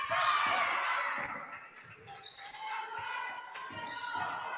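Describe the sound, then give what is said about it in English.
A basketball is dribbled on the court during a game, its repeated bounces thudding beneath continuous talk and background noise. “Way out by half court, dribbling around.”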